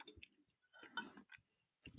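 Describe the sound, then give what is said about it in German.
Faint, wet chewing and soft mouth smacks from someone eating vegan spaghetti bolognese made with cheap minced substitute, coming as irregular clusters of small moist clicks with quiet pauses between them. “Guck du mal nach, ich esse derweil äh, Nudeln Bolognese weiter.”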